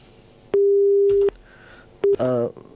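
Telephone busy signal after a caller's line dropped: a long steady electronic tone, a pause, then one short beep, followed by a brief burst of other sound.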